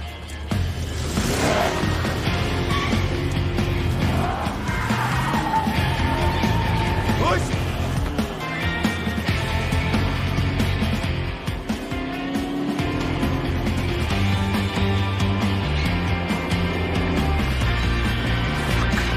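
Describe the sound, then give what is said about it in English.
A car engine revs and the car pulls away after reversing, a loud, sustained motor roar that shifts in pitch as it accelerates. “backs up and hits him before pulling away in his car.”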